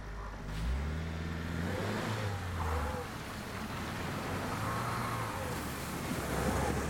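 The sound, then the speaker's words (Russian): A Lada Niva engine reversing on snow with its wheels slipping: a continuous mid-pitched motor drone with revs that rise and fall unevenly over several seconds, fairly loud and with no talk. “Нива сдает назад, немного буксуя в снегу.”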